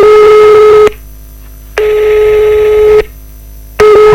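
A loud telephone tone on an outgoing call: steady pulses of a pure tone alternate with silent gaps in a regular on-off pattern.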